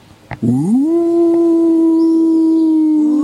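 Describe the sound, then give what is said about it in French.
A wolf lets out a long, loud howl. It sweeps upward in pitch, then holds a steady, pure tone that sinks slightly at the very end. A brief click comes just before the howl begins. “C'est le cri du loup.”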